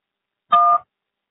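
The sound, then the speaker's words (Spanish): A single short electronic beep, the voicemail recording tone, sounding once at steady pitch in silence. “Después del tono, grabas un mensaje.”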